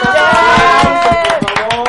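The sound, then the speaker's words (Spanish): Hand claps for a guest on a project-celebration show, quick and fairly regular, loud alongside talk and a sustained tonal sound. “Gracias, por eso un aplauso.”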